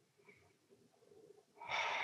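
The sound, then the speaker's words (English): A deep breath is drawn in during a guided breathing exercise. Quiet, faint breathy moments lead into a loud, airy inhale that swells near the end. “let's try it again. We'll do it three times. Deep breath in”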